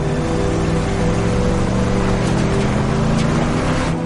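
A car drives along a dirt road toward a ranch, its engine giving a low, steady drone that stays loud and continuous without breaks.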